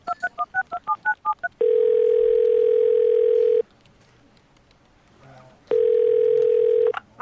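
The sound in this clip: Telephone dialing at a police station: a quick run of keypad beeps, then a long steady line tone, a quiet pause, and the same steady tone returning.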